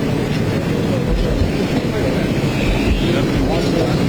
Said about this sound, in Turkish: Evet, aracı, Cumhurbaşkanımızın aracı şu anda hareket etti. Güvenlik birlikleriyle birlikte, güvenlik ekipleriyle birlikte tamamıyla artık buradan